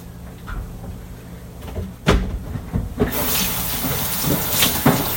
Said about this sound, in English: Throw the eggshells away, wash my hands.